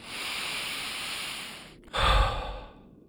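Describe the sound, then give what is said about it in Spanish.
A slow breath drawn in through the nose and let out through the mouth during a guided calming meditation: a long, soft inhale, a brief pause, then a louder, breathy exhale that gradually fades. “Inhala por la nariz y suelta por la boca.”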